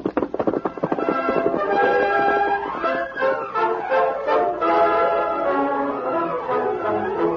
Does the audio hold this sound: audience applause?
no

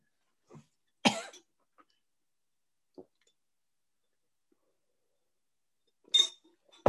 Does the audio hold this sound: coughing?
yes

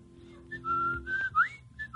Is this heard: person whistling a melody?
yes

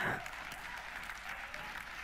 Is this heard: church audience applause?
yes

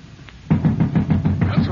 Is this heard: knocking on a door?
yes

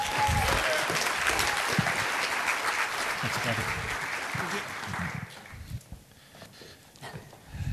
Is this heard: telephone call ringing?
no

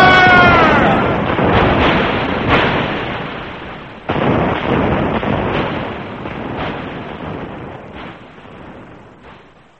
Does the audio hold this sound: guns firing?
yes

